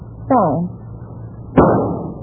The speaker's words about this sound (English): You got him. With one shot.